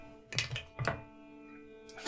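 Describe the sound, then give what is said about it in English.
Dice rolled on a table during a tabletop role-playing game: a short cluster of hard clacks and thunks in quick succession, then quiet, with one more faint knock at the end. “Now I'm going to use my Sibelius dice.”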